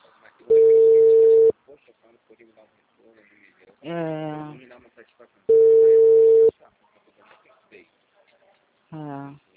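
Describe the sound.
A telephone busy signal sounds as two long, steady, mid-pitched tones with a gap between them, and people talk in the pauses.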